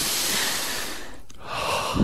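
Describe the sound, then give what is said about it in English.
A deep breath is drawn in as a long, airy hiss. It breaks off briefly partway through, then resumes and swells into a fuller rush of air at the end. “Should we take in a deep breath? You ready? Everyone, let's do this one together.”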